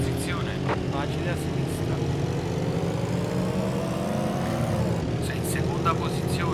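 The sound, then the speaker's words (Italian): A car's engine drones in a racing video game played in the dark, the car handling the road poorly. The steady, moderately loud engine note shifts in pitch, and brief voice-like sounds appear near the start and near the end. “qui cerco di andare più piano perché sta macchina non tiene bene la strada”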